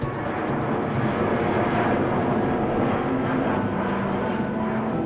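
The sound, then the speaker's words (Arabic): An airplane landing on arrival in Amman gives off a steady, loud engine roar. The broad rushing drone holds an even level throughout, with no voices. “هبطت الطائره”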